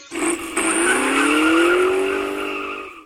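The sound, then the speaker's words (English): A Lamborghini Sardic supercar drives by with a loud, continuous engine roar whose pitch climbs steadily over a few seconds and then eases slightly, with a strained, squealing edge. “This is the Lamborghini Sardic.”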